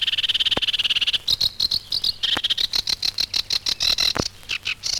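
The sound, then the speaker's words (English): House sparrow calls: many short, high chirps repeated in a quick, steady rhythm, loud and alone with no voices. “house sparrow calls.”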